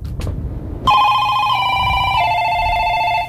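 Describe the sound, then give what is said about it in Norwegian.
A telephone ringing signal marks a caller with the right answer in a call-in quiz. The loud, continuous electronic ring starts abruptly after a brief low-level stretch and holds steady to the end. “En informativ lyd. Bak den lyden så ligger informasjonen at nå har vi fått en innringer med rett svar.”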